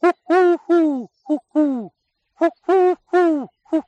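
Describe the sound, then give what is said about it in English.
A human voice imitates the five-note cooing call of a wood pigeon with five low, hooted notes. The phrase then starts again with four more notes. “The wood pigeon, on the other hand, instead of the 3 notes of can you coo, can you coo, can you coo, or United, the wood pigeon has 5 notes. So the wood pigeon says,”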